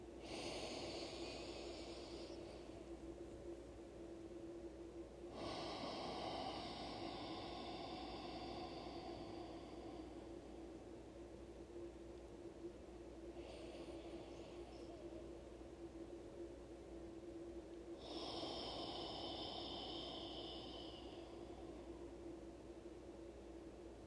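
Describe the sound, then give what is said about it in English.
Forceful breaths in a breathwork exercise, with inhales and exhales sounding as soft, airy rushes that swell and fade in a few long bursts over a low, steady hiss. “Returning back to your more forceful inhales and exhales, maybe for a count of three or four to start.”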